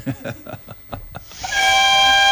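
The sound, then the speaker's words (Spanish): A locomotive horn sound effect, a loud, steady, harmonically rich blast that cuts in after a short, choppy opening and holds at an even level through to the end. “Bueno, vamos a prender la locomotora. A ver, operador, préndame esa locomotora, esas bocinas que largamos, a ver.”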